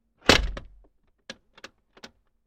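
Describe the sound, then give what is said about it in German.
A door slams shut and is locked: one heavy, loud bang that fades out, followed after a pause by a few small, sharp clicks. “Sofort wird die Tür zugeschlagen und verschlossen.”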